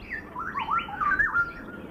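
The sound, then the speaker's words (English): Southeast Asian birds call at dawn in a tropical zoo habitat, with squawky whistled notes sliding up and down in pitch, several calls in quick succession over soft background hiss. “What we're experiencing as the dawn progresses is a territorial call, it's a wake-up call, and the forest is becoming alive with the vocalizations, with the songs, with the singing.”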